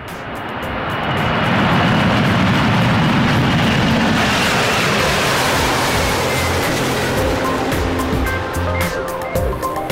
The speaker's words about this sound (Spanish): En este vuelo, sí se permite el uso de dispositivos electrónicos. ¡Despegamos!